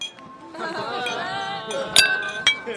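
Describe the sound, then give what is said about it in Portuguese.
Glasses clink in a tavern as patrons raise their cups. Two bright, ringing chinks come near the end, the second slightly softer, over a steady bed of voices. “Todo mundo na taverna se levanta o copo, parece acompanhar o taberneiro ali.”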